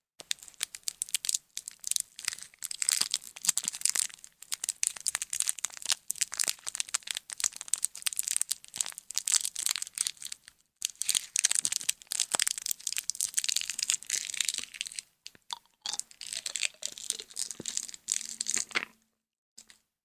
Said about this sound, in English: Sorry, that was me putting a sweet in my mouth for the ASMR fans out there.